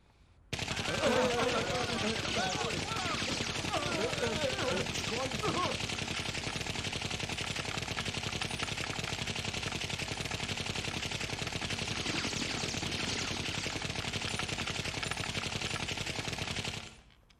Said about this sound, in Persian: رئیس آروم باش، داری مرا میترسونی. به کی شلیک کردی؟